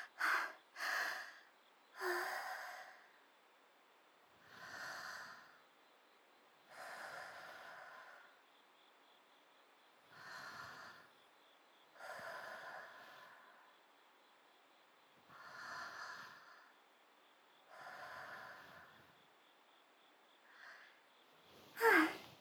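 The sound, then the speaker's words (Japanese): Heavy, labored breathing of someone catching their breath after hurrying. Slow, loud inhales and exhales repeat at a steady rhythm, with no talking. “すみません先輩、遅くなりました。今呼吸を整えますから。”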